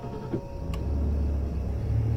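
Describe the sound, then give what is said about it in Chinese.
A car engine starts and runs as a low, steady rumble that swells slightly and then holds at a constant level. It stays moderately loud throughout, with a faint brief click early on. “他戴上口罩，降下车窗，重新发动车子。”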